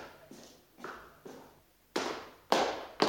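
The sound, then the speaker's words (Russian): Boots stomping on a floor: six heavy, evenly spaced thuds with short ringing tails, the last three noticeably louder than the first three. “Как стучат сапогами. Так валится, как будто 40 пуд сбрасывает кто-нибудь с телеги.”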